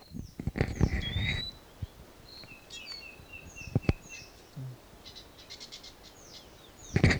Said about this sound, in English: Wild bird.